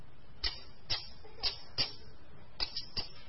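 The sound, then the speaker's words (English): Snowflakes tick against a coat on a wintry day, making faint, sharp, scattered little taps at irregular intervals over a quiet background. “I didn't know what it was, this strange ticking sound, and it was coming all around me. And I'm looking around, and suddenly I realized that there were snowflakes hitting my coat,”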